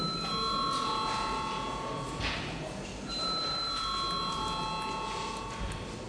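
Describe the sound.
A bell rung in a parliamentary chamber before a vote: steady, high electronic ringing tones sound in two long stretches with a brief break between them, over a faint murmur of the room.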